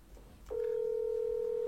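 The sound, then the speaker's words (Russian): A telephone line tone sounds as a call is dialed: a steady mid-pitched tone cuts in after about half a second and holds unbroken and even to the end, over faint background hiss. “Ну, давай, набирай.”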